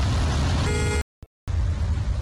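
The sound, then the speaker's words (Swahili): Cars sit stuck in a traffic jam with a steady low rumble of engines and road noise. A short horn-like tone sounds, then the audio drops out abruptly before the rumble resumes. “Traffic jam kama lote. Magari hayasogei.”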